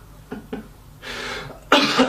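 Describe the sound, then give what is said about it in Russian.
A man coughs: two short, light coughs, then two longer, harsh, loud coughing bursts, the last the strongest, with no talk. “Ой, аж закашлялся”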